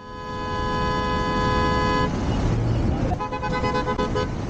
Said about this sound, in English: Well, noise pollution like that in general has become a real problem in large parts of China. So what's the government's solution? Well, a ban on honking on city roads or streets,